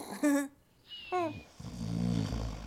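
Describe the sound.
A sleeping creature snoring. Short, higher vocal sounds come first, then a low, rumbling, throaty snore builds and grows louder over the final second.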